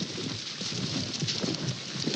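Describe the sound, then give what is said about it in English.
A strong gust of wind in a storm brings a loud, dense roar of rushing air mixed with a rain-like hiss. It stays steady with slight surges throughout, and no voices are heard. “Dang, that's a strong gust. Y'all dang, feel that?”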